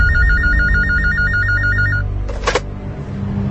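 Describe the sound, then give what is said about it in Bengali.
A telephone rings for an incoming call with a rapid, warbling electronic trill that holds steady for about two seconds, then cuts off, followed by a brief noisy burst and a quiet background. “থানার OC নাফিসের number স্থানীয়দের কাছ থেকে নিয়ে phone করলেন নাফিসকে।”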